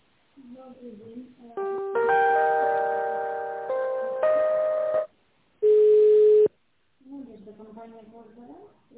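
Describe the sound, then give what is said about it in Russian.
Telephone tones play while an office call is put through to another person: a run of bright, sustained electronic tones, then one steady beep, with people talking before and after. “Переправлено Владимиру, сейчас я вас с ним соединю, оставайтесь”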